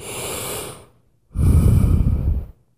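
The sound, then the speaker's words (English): One deep yogic breath: a long, airy inhale, a short pause, then a stronger, louder and rougher exhale, heard alone. “Deep breaths. Deep yogic breaths.”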